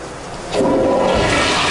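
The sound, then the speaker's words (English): Toilet flushing in a restroom: a short quiet hiss, then a sudden loud, steady rush of water that holds to the end. “Toilet flushes, obviously. All right, toilet flushes.”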